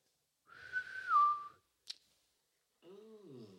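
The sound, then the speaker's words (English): A clear whistle rings out in a jungle: one sustained, fairly high tone lasting about a second that wavers and dips near its end. A sharp click follows, then a lower, wavering tonal sound. “a whistle in the jungle. Instantly he freezes and he looks around trying to figure out where this whistle is from.”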